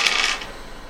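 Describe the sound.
Dice rolled during a tabletop roleplaying game give a brief, bright rattling clatter that lasts about half a second and then fades into faint hiss.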